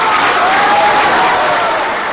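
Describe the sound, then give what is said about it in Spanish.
Audience applause for a choir and chamber orchestra at a concert, a thick, continuous wash of clapping that stays loud and even from start to finish. “queremos agradecerle a la maestra Cecilia Tapia, nuestra compañera y querida amiga, este merecido aplauso, igual para los compañeros y compañeras de la camerata.”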